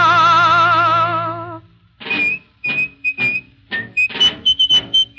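A man whistles softly through his teeth, giving a string of short, light notes in a halting, uneven tune.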